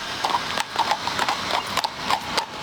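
Hooves of mounted police horses clip-clop on patrol at Ankara Castle during security for a leaders' summit; the horses were brought from Hungary and specially trained. Many crisp hoof strikes fall in a steady, even walking rhythm.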